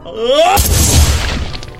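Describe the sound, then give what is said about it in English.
A single gunshot as a man pulls the trigger of a gun jammed into his mouth: a sudden loud, sharp crack that bursts in after a short rising voiced sound, then trails off in a low, rumbling decay. “Rick's eyes went blank as he reached out and picked up the gun from the seat, not hesitating for an instant as he jammed it into his mouth and pulled the trigger.”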